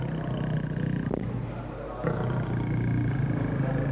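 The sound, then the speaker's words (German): Tigers growling at a zoo, a low, rough and continuous rumble that runs through the whole stretch with a couple of brief sharper bursts. “während eben die Tiger hier recht sauer sind und knurren”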